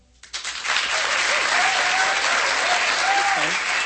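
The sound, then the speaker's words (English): Audience applause swells within the first half second into steady, loud clapping that continues to the end, with a few voices whooping over it. “All right, enough applause.”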